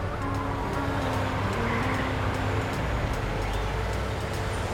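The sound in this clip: A car drives along a road to the airport, its low, steady engine and road rumble holding an even level throughout, with a few faint light ticks above the drone.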